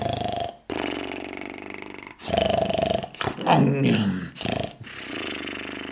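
A wolf snoring, heard as deep, rasping, growl-like breaths. Several drawn-out snores rise and fall in uneven rhythm, with brief pauses between them.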